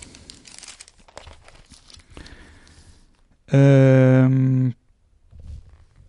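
Crinkly rustling of newspaper pages being turned and handled, a few soft crumpling bursts, then a loud, steady harmonic tone that holds for about a second before the rustling briefly returns.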